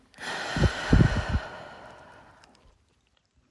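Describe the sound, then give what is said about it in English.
A long exhale during a guided breathing moment, a breathy rush of air with a few low puffs early on, gradually thinning out and fading to silence after about two seconds. “Just take a breath with me now. Exhale.”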